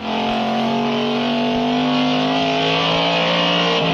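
A 1960s Alfa Romeo Duetto sports car engine, as in the film The Graduate, runs with a loud, sustained droning hum of steady harmonic tones that holds nearly constant in pitch throughout.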